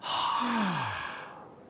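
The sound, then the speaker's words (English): A slow breath out through the mouth during a guided breathing exercise makes a soft, breathy whoosh with a brief falling voiced hum. It gradually fades away. “First, let's breathe in slowly through our noses. Then slowly breathe out through our mouths.”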